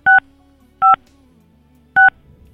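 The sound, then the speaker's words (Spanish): Three short telephone touch-tone dialing beeps sound at uneven intervals, with a faint low line hum between them. “Vamos a volverlo a intentar. Vamos a comunicarnos con Julio.”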